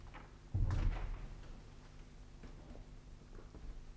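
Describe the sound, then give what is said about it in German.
A door is closed quietly as two people leave a room: one soft, muffled thud near the start, then only faint low background noise. “als die beiden das Zimmer verließen und die Tür leise hinter sich zumachten.”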